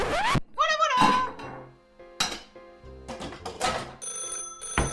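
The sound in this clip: A telephone rings near the end in short, high electronic bursts. Before it, voices talk over some clatter.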